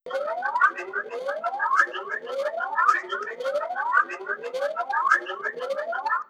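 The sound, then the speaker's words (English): A patrol car siren in Athol wails in six rising sweeps, each climbing steadily in pitch before snapping back down, repeating in an even, regular rhythm. “if you guessed a terrorist-free zone, patrol person's car, siren, you are right”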